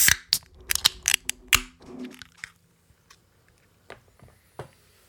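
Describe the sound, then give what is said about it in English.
A beer can is cracked open, a quick run of sharp snaps and clicks followed by a few quieter crackles fading away. “I'm back to cans this week. So I'm always three. I'm forever in cans. Yes, you are. Here we go. Three, two, one, crack.”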